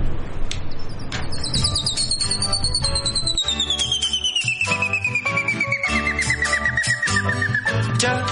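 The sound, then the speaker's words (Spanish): Rufous hornero, the ovenbird, calling: a long, loud run of rapid, piercing whistled notes that slides steadily downward in pitch over several seconds, with a steady low rumble underneath. “¿Cómo podía estar ausente nuestra ave nacional? ¿Cómo podía estar ausente el hornero? ¿Lo escuchamos?”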